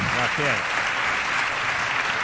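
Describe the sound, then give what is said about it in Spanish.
A live audience applauds the city's mayor at a morning event, a steady, even roar of clapping. A brief voice is heard at the very start. “Aplauso mañanero, eso no es habitual.”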